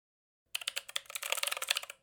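Rapid typing on a computer keyboard: many quick, uneven key clicks start after a brief silence and run densely to the end, moderately loud and with no voices.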